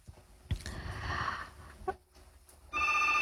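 A telephone rings with an incoming call on a call-in phone line. A brief ringing burst comes early, then a louder, steady ring sounds alone near the end.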